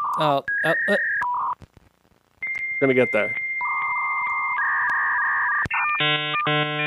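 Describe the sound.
A dial-up modem connecting to the internet, with dialing tones, a short gap, then loud steady handshake tones and shifting beeping screeches. A voice speaks briefly.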